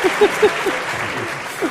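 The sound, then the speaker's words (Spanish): Applause, a brief dense patter of clapping with a few short voiced blips over it near the start. “Aplauda.”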